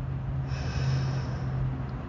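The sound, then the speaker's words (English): Slow breathing during a guided breathing exercise, heard as one long, steady, soft rush of air with an even level throughout. “So you breathe in. And then you breathe out.”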